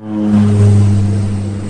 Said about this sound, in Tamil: விமானம் சென்னையில் தரையிறங்கியது.